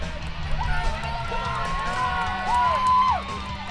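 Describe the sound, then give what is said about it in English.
Crowd cheering and whooping at a World Long Drive golf event, with sustained shouts and several high, whistle-like whoops that rise and fall over a steady roar of voices. “No, those are not the sounds from an action sport event like the X Games. That is actually a golf event. A world-long drive event, to be exact.”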